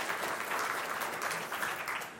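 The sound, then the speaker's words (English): Audience applause in a church as a guest speaker walks onto the stage: a loud, continuous patter of many hands clapping, holding steady before easing slightly at the end. “No one normally claps for me whenever I walk onto the stage. It's when I'm walking off the stage that I get the claps.”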